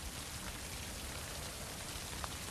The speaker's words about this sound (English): She marches away through the rain.